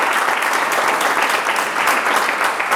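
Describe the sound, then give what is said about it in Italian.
Audience applause for a guest during an interview about her book: a thick, sustained roar of many hands clapping at a steady level throughout. “E ti facciamo un applauso intanto”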